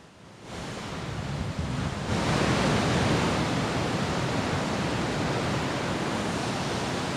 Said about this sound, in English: That's the sound of waves.